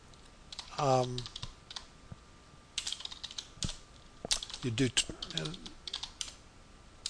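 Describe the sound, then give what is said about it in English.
Fingers type on a computer keyboard in many irregular bursts of sharp clicks, with short pauses between them. A voice speaks briefly between the bursts. “just typing some of this. I'm having a hard time, sorry, talking and typing, so give me just a second.”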